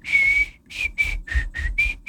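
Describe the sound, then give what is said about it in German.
A person whistles a bright, high tune in a series of short, clear notes: one long held tone, then five or six brief notes in an uneven rhythm, fairly loud, with no talk. “So pfeifen wir uns rein in diesen Montag.”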